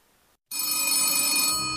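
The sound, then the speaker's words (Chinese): A 1960s telephone bell rings late at night in one loud, continuous metallic burst that starts abruptly after a brief quiet moment and holds steady to the end. “张爱萍在睡梦中被电话铃声惊醒”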